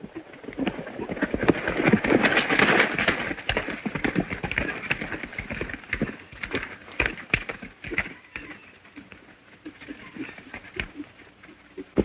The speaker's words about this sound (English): He turns and leads the pony away.